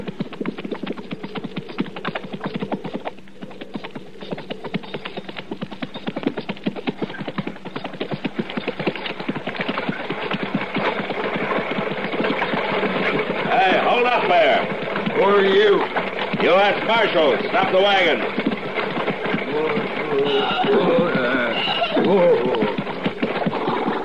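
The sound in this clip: A horse-drawn wagon clatters steadily throughout, with hooves clopping and wheels and harness rattling in a dense, continuous texture while men talk over it.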